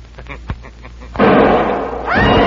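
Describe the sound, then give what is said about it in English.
A sudden loud gunshot blast from a loaded gun in a radio drama confrontation. A faint click comes first, then the shot swells into a long, rumbling wash that carries on to the end. “It's no use, Vonderman. You can't shoot us. But the guns. You loaded them yourself. I saw you.”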